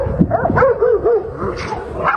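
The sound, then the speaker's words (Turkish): More than ten stray dogs fight in a street in Ankara's Altındağ district. Loud, overlapping barks and high yelps come in a rapid, irregular burst. “Köpekler birbirine girdi. O anları çevredeki bir vatandaş kaydetti. Ayırmak için seslendi ama köpekler kavgaya devam etti.”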